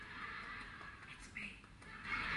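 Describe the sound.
A horse neighs during an Amish buggy ride in Amish country, Pennsylvania: short, shrill whinnies break out over a steady rumbling background, with the loudest burst near the end.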